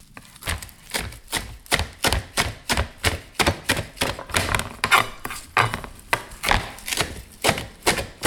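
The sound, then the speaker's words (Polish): A knife coarsely chopping parsley: many sharp, steady knocks in a quick, even rhythm, each a dull thud with a crisp edge, loud and alone with no talking. “Powiedziałabym, że zgrzebnie posiekana natka pietruszki.”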